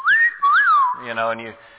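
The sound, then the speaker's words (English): A person whistles a short, gliding phrase that rises and falls in pitch for just under a second, and a brief burst of voice follows. “He's whistling to them, all right?”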